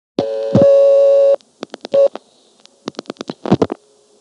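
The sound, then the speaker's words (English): Telephone dialing tones on an exchange line: a long steady tone, then two quick clusters of short tone bursts separated by a brief gap, crisp and alone. “This time I get into it by dialing 34.”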